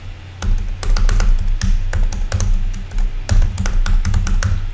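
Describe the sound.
Typing on a computer keyboard: many quick, sharp clicks in irregular bursts over a low background hum.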